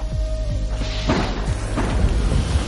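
Flamethrowers carried by two soldiers open fire on bodies in a trench: a dense, sustained roar of rushing noise with several heavy low thuds and bursts throughout.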